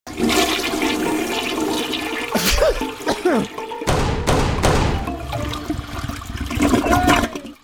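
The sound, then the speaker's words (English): A toilet flushes with a loud, sustained rush of water that churns and gurgles for several seconds, then fades away at the end. “the show that tries to figure out how many flushes it takes to get rid of those Wookiee cookies”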